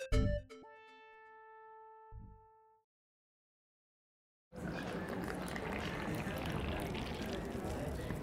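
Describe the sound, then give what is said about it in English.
Moroccan mint tea is poured on a rooftop terrace in Casablanca, a steady rushing, splashing stream that runs to the end. Before it come a few ringing, bell-like tones and a brief silence. “That's the sound of pouring Moroccan mint tea.”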